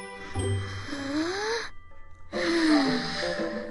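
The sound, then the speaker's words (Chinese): An exaggerated deep breath from a cartoon character showing a nervous elephant how to calm down: a long, drawn-in breath with a rising tone, a short pause, then a slow exhale that falls in pitch. “乐迪向小象走近了两步，并且以身示范的教小象深呼吸。小象看到，也仰头深深的呼吸了一下。”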